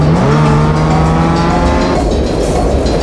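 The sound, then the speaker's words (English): A car speeds down a road during a chase, its engine roaring loudly and steadily throughout, with a sustained engine tone that climbs briefly at the start before holding level. “he looks around and notices the car speeding down the road which runs alongside the track.”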